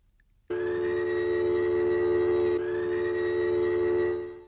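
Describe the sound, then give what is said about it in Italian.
An air raid siren wails during a 1940 alarm test in Italy: a steady, loud tone that starts abruptly, dips briefly midway and holds for about four seconds before fading. “la sirena dell'allarme che lacera per la prima volta l'aria”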